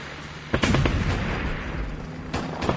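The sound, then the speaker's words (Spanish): Dramatized fire from infantry, tanks and armored vehicles at Teatinos, Agustinas and Plaza de la Constitución: heavy booming blasts and bursts of gunfire over a dense, continuous rumble. “Las tropas de infantería, los tanques y blindados del ejército disparan desde Teatinos, Agustinas y Plaza de la Constitución.”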